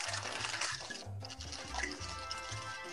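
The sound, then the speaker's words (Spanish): Wet churning and sloshing as chocolate drink ingredients are beaten, a continuous liquid whirl with low tonal notes underneath and no talk. “Así que estos son los ingredientes. Bato.”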